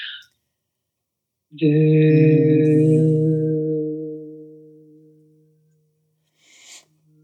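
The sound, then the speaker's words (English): A person hums a low, held "voo" note imitating a foghorn, steady and resonant for about three seconds before slowly fading, with brief breath sounds before and after. “we hold a note that sounds like voo, but we make the sound of a foghorn.”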